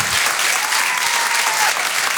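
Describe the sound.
An audience at the Apollo applauds a comedian coming on stage: steady, dense clapping that holds at an even level throughout this brief moment.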